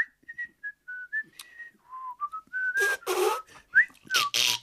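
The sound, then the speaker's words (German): A man whistles a tune to himself after work, a master carpenter in good spirits: a clear melody of short, varied notes. Later come loud, breathy hissing bursts between the whistled notes. “Und da hat er nach Feierabend vor sich hingepfiffen.”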